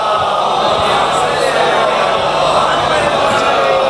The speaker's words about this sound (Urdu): نہیں نہیں نعرہ لگانے دیں بھائی, اچھا لگ رہا ہے ان کا نعرہ.